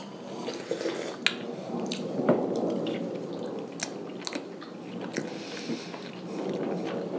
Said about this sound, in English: I'm going to try the stinky cheese, and that way I can get back to on that one, too.